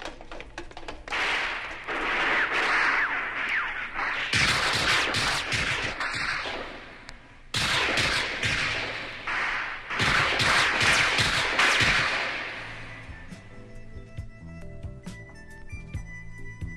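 Dense bursts of gunfire as hitmen rush a sniper's position on a steel tower, sharp loud cracks packed into rapid overlapping volleys with one short break, then fading into a low hum near the end.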